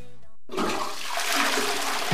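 Toilet flushing: an abrupt rush of swirling, gurgling water that starts suddenly and stays loud and steady to the end.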